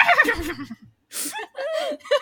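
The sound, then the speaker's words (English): Horses whinnying in the distance at the mention of the housekeeper Frau Blücher in a comedy film: shrill, wavering neighs in two bursts separated by a short pause, the second broken into a few cries. “Who, every time they say her name, the horses in the distance go nuts.”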